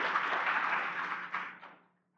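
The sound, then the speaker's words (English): Brief audience applause for a volunteer helper, a burst of clapping and cheering that fades steadily and stops within about two seconds, leaving silence. “Everybody, come on, give Abby a hand here. Yay for Abby.”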